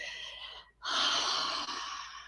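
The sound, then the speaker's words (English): Deep breathing in and out during a guided relaxation exercise: a long airy breath, a short silent pause, then a second, louder and longer rush of breath, with no talking. “Step two is the breathing. So 10 breaths, and we're gonna do in and out.”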